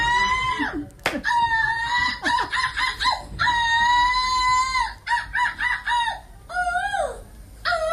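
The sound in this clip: A woman's voice imitates seagull squawks at a European seagull-squawking championship in Belgium: many loud, harsh, wavering cries in quick bursts, some rising and falling, separated by short breaks.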